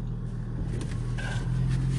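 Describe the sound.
Steady low engine rumble from a car driving on the road, a continuous hum with no speech over it.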